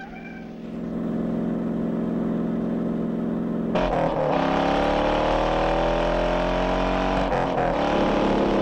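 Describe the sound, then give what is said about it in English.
Engines of cars racing and swerving in a car chase, a sedan among them, near a truck and a metal barrier above a steep drop. A loud, continuous roar shifts sharply near the middle into rising, whining tones that keep changing pitch. “The sedan overtakes a car, missing an oncoming vehicle by a hair's breadth. They both undertake a truck and scrape against a metal barrier above a steep drop. A car swerves onto the verge to avoid them.”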